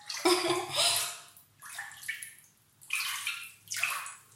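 Hot bath water sloshing and lapping as a person soaks in a filled tub: four soft bursts of splashing with quiet gaps between, and no talking.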